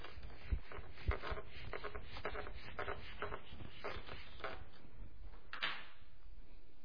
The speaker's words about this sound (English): Now, let me erase this.